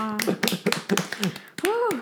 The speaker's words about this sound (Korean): 일단 박수.